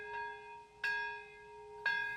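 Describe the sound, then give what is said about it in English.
Bells ring out in Nagasaki at 11:02 on the 75th anniversary of the atomic bombing. Three resonant strikes sound roughly a second apart, the first faint, and each leaves a long, steady ringing hum at a quiet level. “At exactly 11:02 local time, bells rang out.”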